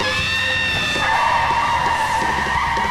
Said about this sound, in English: She skids to a halt, the dog on her lap.